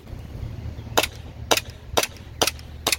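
Five sharp gunshots from an M4-style rifle fed by a drum magazine, fired semi-automatically at an even pace about half a second apart. Each is a crisp, moderately loud crack with a short decay, against low background rumble.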